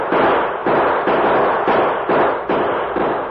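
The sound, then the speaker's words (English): Gunshots fired into the air to fake a short battle: several loud, booming blasts in quick, uneven succession, each trailing off before the next. “Turn around and start back to Stockton with the prisoners as soon as we fire some shots into the air. Right. Use your guns, men. Make it sound like a short battle.”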